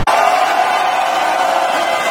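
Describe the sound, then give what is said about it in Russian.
Staff in a mission control room erupt in cheers as a Starship reaches orbit. A sudden wall of crowd noise bursts in at once and then holds loud and steady. “Центр управления в этот момент взорвался аплодисментами.”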